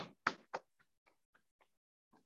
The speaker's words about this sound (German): Und dann klopfen wir auch hier einfach mal so das ganze Bein entlang bis in den Fuß.